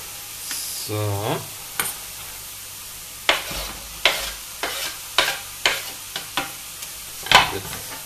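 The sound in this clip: An onion half sautés with mushrooms in a pan, giving a steady sizzle and hiss broken by many sharp stirring strokes at an uneven pace. A voice is briefly heard near the start.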